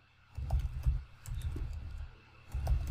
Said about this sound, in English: So here I am writing our first inner join query.